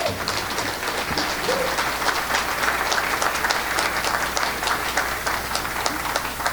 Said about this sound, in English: Why don't you welcome, please put your hands together for Miss Beth Alessio, please.